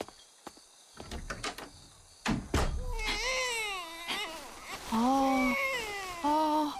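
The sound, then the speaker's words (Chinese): An infant cries in repeated wailing bursts that bend up and down in pitch, preceded by a few sharp knocks; the cries grow louder and more insistent toward the end. “别哭了别哭了，妈妈抱”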